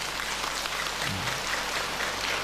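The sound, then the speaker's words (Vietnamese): An audience at a Buddhist dharma talk applauds, a soft, continuous patter of many hands clapping that holds an even, fairly faint level throughout without pausing. “Nếu quý vị còn mong muốn thì vỗ tay, còn không thì thôi.”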